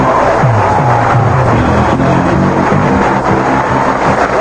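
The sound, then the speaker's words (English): A game show studio audience cheers wildly in a loud, continuous roar of crowd noise. Whoops and shouts rise above it, and the din stays at full intensity the whole time. “I thank you, O illustrious one, Rod Roddy, once again whipping the audience up into a veritable frenzy.”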